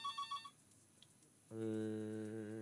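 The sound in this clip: Telephone ringing with an incoming call: a few quick electronic chirps, a pause, then a steady, rich, buzzing ring tone that carries on to the end.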